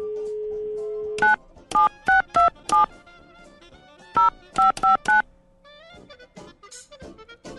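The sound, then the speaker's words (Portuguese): A steady telephone dial tone, then nine keypad DTMF beeps for a phone call: five quick tones, a short pause, then four more. The beeps are loud and evenly pitched, and quieter sound follows. “Vamos lá, deixa eu ligar pro palmeirense aqui então.”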